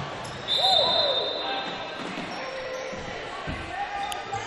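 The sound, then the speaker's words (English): A basketball free throw rattling around the rim and dropping off during a game between George Ranch and Hastings: a ringing metallic tone early, then a single dull thud near the end, over crowd murmur and a voice. “Right hand dribble, free throw on its way, knocked around and off the rim.”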